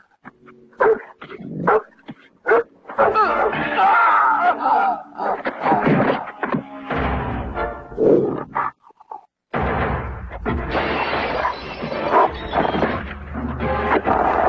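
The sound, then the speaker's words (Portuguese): Dog barking loudly in a dubbed film scene, heavy and continuous barks mixed with growling, roaring and a general commotion with no break. “Vou lhe apresentar o meu cachorro.”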